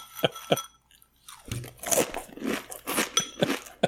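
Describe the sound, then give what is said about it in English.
Honey Shreddies cereal crunches as it is eaten: two sharp bites, a short pause, then a long run of loud, dense crunching and chewing with no talk over it. “Look what I've got. You got a big bowl of Shreddies. I'm gonna eat Shreddies in front of the microphone.”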